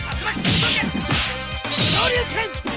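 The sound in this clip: Ken's fighting moves in the home version of the Street Fighter: The Movie video game: a rapid series of sharp whip-like swishes and thwacking hits with shouted grunts over a steady low background.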